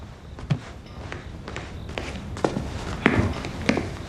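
Footsteps of someone going upstairs: a steady series of fairly faint, evenly spaced treads, with a few heavier thuds toward the end.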